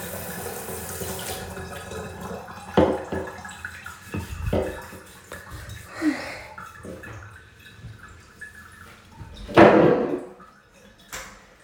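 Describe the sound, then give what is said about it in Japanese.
Bathwater sloshes and splashes as someone washes their body. A few irregular splashes and drips stand out over a quiet background, with one louder splash late on. “あ、だいぶあったかくなったかな。よし、体洗おうっと。”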